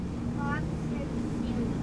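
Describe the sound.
A motorboat steered by a five-year-old gives off a steady, low engine drone beneath people talking.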